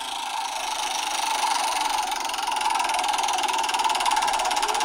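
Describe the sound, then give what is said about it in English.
Rapid, even clicking of a spinning prize-wheel sound effect played from a phone held next to a microphone, a dense steady ticking that runs unbroken throughout with no voices over it. “Let's spin that wheel.”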